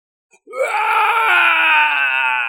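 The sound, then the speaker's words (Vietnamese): Agonized scream: a single loud, sustained cry lasting about two seconds, strained and harmonic-rich, rising sharply at the start, then holding a steady, piercing pitch until it cuts off. “Tiếng kêu vô cùng thê lương thảm thiết truyền đến vang tới tận mây xanh”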